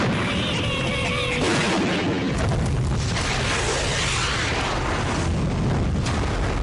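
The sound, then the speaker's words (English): Roaring blast of a tank-mounted flamethrower firing as an armored vehicle is engulfed in flames: a loud, dense, continuous rumbling roar sustained from start to finish. “What makes you think the puny flamethrower on that tank can do any such thing? Major Atomic? Firing!”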